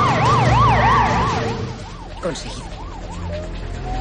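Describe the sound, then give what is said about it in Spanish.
An ambulance siren wails in fast, even rising-and-falling sweeps over a low engine rumble as the vehicle speeds away at full speed, loud at first and then slowly growing fainter. “Sam cierra y se monta en el asiento del conductor. Arranca y se marchan de allí a toda velocidad.”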